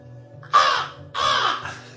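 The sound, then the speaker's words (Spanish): A person imitating a crow, giving two harsh, raspy caws, the second drawn out and breaking into a short extra croak, loud and alone over a low steady hum. “permitidme que os salude como un cuervo”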